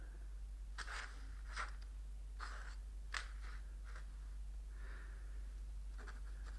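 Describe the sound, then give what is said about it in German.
A pen or pencil scratches on paper as someone draws a lily by hand. Short, faint scraping strokes come one after another with brief pauses between them, and no voice is heard. “Heute war die Vorstellung für den König. Ihm zu Ehren zeichne ich die Lilie auf.”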